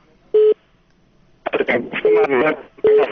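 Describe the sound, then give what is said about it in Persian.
Line tone after a telephone call is cut off: a few short, steady beeps at one pitch, with people talking between and under them. “متاسفانه تلفن قطع قطع”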